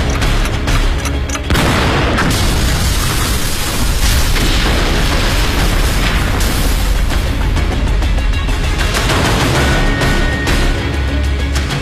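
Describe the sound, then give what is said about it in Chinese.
A courtyard house in an old Beiping lane exploding before dawn, destroyed by time bombs placed on its roofs. A loud, sustained rumble packed with dense crackling bursts runs the whole time, with no voices. “北平胡同夜景中的一处四合院，有一黑衣人在正房的里间和外间屋顶上各安放了一枚定时炸弹。稍后房屋爆炸，”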